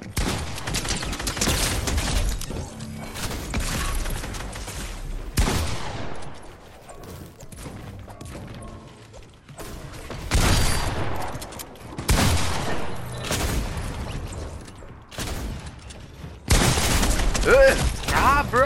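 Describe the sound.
Assault rifle gunfire from a SCAR in the video game Fortnite: several loud bursts of rapid automatic shots, each separated by short lulls.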